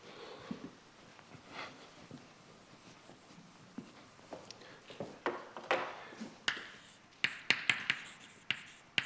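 A formula written by hand, heard as a run of sharp taps and scratchy strokes that grow louder and more frequent toward the end, over a faint hiss.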